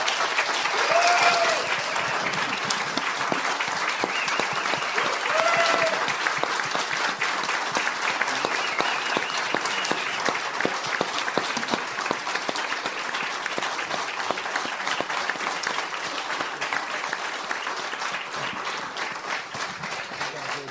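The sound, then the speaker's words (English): A crowd applauds people being honoured at an evening event with long, sustained clapping that stays dense and steady for about twenty seconds, easing off only slightly toward the end. “And I'd like to give all of you to give them a hand for what they've done and for being here tonight.”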